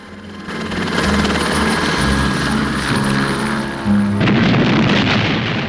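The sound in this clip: A helicopter taking off, its loud rotor and engine roar steady and dense throughout, with a brief dip and then a surge in loudness near the end.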